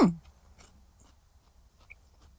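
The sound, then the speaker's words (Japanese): Crisp bite into a fresh, juicy cucumber, one sharp crunch at the start followed by faint, soft chewing. “すごい。食感が強い。あと、キュウリの味が濃いです。”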